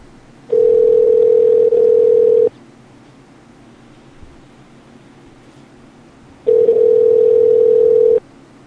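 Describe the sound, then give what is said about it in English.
A telephone dial tone sounds twice as a steady, loud, mid-pitched hum on a phone line, each stretch holding about two seconds, with quiet hiss in between. “Dialing.”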